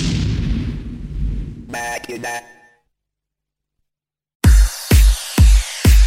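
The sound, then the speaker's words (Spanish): A bomb explosion sound effect gives a roaring, rumbling blast that slowly fades. A brief voice follows, then silence, then four heavy, evenly spaced booming thumps. “la bomba que va a estallar”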